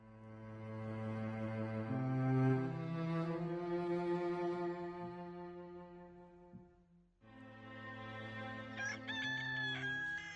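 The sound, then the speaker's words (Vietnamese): Rooster crowing from the head of a village, a long drawn-out harmonic call followed after a short gap by a second crow, clear and moderately loud with no talk over it. “Tiếng gà gáy vang vọng từ phía đầu thôn thượng vọng lại.”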